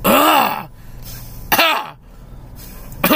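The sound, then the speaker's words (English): A person coughs three times, each a harsh, throaty burst with a rough voiced edge, spaced about a second and a half apart; the last is cut off at the end. “You're just coughing a lot.”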